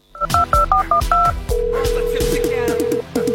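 Telephone keypad dialing gives six quick, evenly spaced dual-tone beeps, followed by a long steady tone that breaks briefly and then resumes. The tones sit over a rhythmic, low backing pulse.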